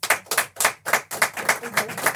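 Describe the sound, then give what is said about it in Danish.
An audience claps on request during a live show, producing a steady series of sharp, evenly spaced claps in unison that stay fairly loud throughout. “Prøv lige at klap, hvis I hele tiden er sammen.”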